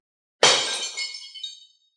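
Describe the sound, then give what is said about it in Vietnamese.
A magic mirror struck by a sword cracks and shatters: one sharp, loud crash of breaking glass, then a bright tinkling spray of shards that fades out over about a second. “Một tiếng keng trong trẻo vang lên, bảo vật cực kỳ quý giá của Thiểm Lôi tộc là lôi sát kính bị huyết kiếm đâm trúng và xuất hiện rất nhiều vết nứt.”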